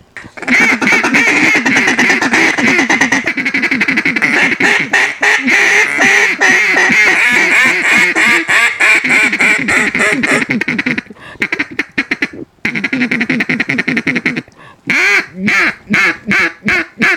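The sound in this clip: Several waterfowl hunters blow duck calls together in rapid, pulsing quacks that run almost without a break, with short pauses near the middle, then a few choppy final bursts.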